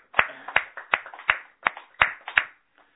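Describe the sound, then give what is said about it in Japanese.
Hand clapping celebrates a 64th birthday at a place of worship: seven sharp, separate claps in a slow, even rhythm, followed by a faint trailing tap and quiet. “盛大な拍手でお祝いをして”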